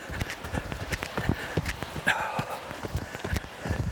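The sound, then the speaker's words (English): Running footsteps strike rocky ground on a trail, many quick, sharp scuffs and crunches in an uneven but steady rhythm, with occasional heavier landings. “Going over all these rocks here. Oh, it's kind of hard to run in this section.”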